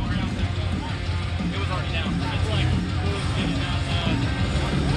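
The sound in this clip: A monster truck engine screams on the rev limiter after landing a jump at a Truckmania event, a loud, continuous rough roar with an announcer talking over it.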